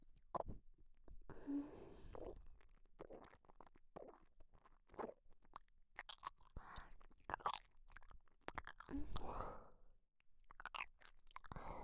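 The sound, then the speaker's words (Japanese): Close-up ASMR eating with chewing and wet mouth sounds: many irregular smacks, crunches and soft clicks in a quick, uneven rhythm, fairly quiet, with no talking. “耳を近づけて聞いてください。 ではいただきます。”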